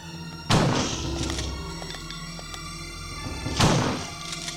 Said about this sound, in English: I'm shooting them, but they're not doing anything. Okay, so one shotgun shot kills them anyway.